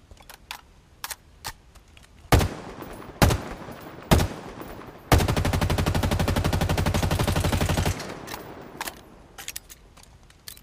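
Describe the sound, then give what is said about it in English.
Video game gunfire from a Mark 40 assault rifle with a 36-round magazine: three sharp single shots spaced about a second apart, then a loud, sustained rapid-fire burst lasting nearly three seconds, with light clicks and rattles between. “The next weapon is the Mark 40 assault rifle.”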